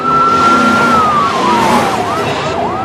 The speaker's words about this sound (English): followed closely by the cops as they speed past Reese and the boys